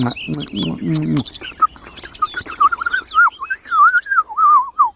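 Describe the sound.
A person whistles an imitation of a blackcap's song after a short stretch of speech, producing a quick run of bright, warbling notes that dart up and down in pitch.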